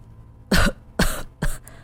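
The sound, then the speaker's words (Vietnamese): Violent coughing from a man with a hand over his mouth: three loud, harsh bursts spaced evenly apart, heard alone with no talking. “đưa tay che miệng ho sặc sụa”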